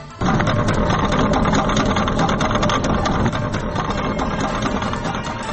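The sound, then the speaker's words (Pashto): Steady mechanical rumble from a people-built cable crossing over a river in Nurgal district, Kunar, standing in for a collapsed bridge. The engine-like drone starts abruptly and runs without a break, easing slightly in the second half. “دا د کونړ په نورګل ولسوالۍ کې د نړیدلي پل پر ځای د خلکو له لورې پر سیند جوړې شوي زانګو ژغ دی”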